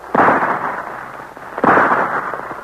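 Two loud rifle-style gunshots, fired at a bear in a radio drama, each a sharp blast with a brief rumbling tail, about a second and a half apart.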